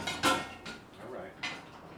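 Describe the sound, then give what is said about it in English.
A pan clatters as it is set into a dishwasher rack, giving a few light, sharp clinks of metal against dishes over a faint, quiet background. “I'm putting the pan on the dishwasher.”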